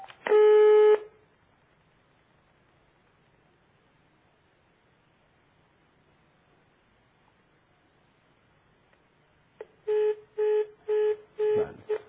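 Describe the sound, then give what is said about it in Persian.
Telephone line tones on an unanswered call: one steady tone near the start, a long quiet stretch, then five short, evenly spaced beeps. “زنگ خورد ولی جواب ندادن. فکر کنم دوباره تماس بگیریم.”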